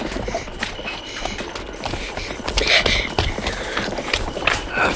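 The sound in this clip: Hooves of a horse-drawn carriage clip-clop in a quick, rhythmic beat over a steady rumble of wheels.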